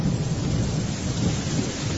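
Heavy rain with thunder: a loud, continuous low rumble under a dense, steady wash of falling rain, with no voices.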